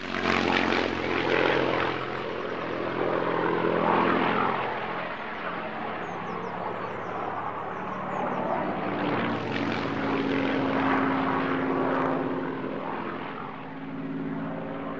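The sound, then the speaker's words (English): A propeller plane flies overhead, its engine a steady, loud droning roar with a low harmonic hum that holds for the whole stretch, swelling slightly and easing near the end. No voices. “Annie Hartridge is outside when the plane flies overhead.”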